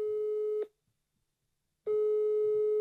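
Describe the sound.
Ringback tone sounds on a phone call to someone's mother in Malatya: a steady, humming tone, then about a second of silence, then the same tone again.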